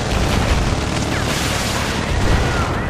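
A C4 explosion in a military shooter video game, heard as a dense, continuous booming roar with a crackling, gunfire-like texture, loud throughout.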